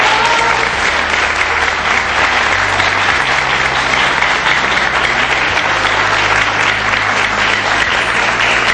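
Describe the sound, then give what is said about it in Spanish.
An audience applauds in honor of a coordinating teacher at a school ceremony, with many hands clapping in a thick, even roar that stays loud and unbroken throughout. “quiero pedir un fuerte aplauso a nuestro profesor coordinador Ricardo Pizarro”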